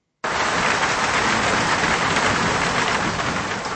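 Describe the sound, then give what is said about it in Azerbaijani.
Heavy rain pours down in Baku, a dense, loud hiss of falling water that starts abruptly after a brief silence and runs steady and unbroken to the end, with no voices. “Dünən axşamdan başlayan güclü yağış Bakının həm kənardakı yaşayış ərazilərində, həm də elə mərkəzində problemlər yaradıb.”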